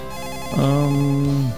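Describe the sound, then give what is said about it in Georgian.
A telephone rings in a radio studio as a call comes in. One sustained electronic ring tone lasts about a second, steady in pitch and fairly loud, with no voices over it. “ზარი სტუდიაში, გამარჯობა.”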